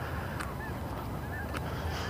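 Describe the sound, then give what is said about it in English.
Geese honk faintly a few times, short nasal calls rising above a steady, quiet outdoor background hiss during a morning walk. “admire the geese.”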